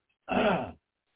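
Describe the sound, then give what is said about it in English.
A person clears their throat once before reading a Bible verse aloud. It is a short, rough, gravelly burst of about half a second, heard alone without any talk. “See if I can get my throat clear.”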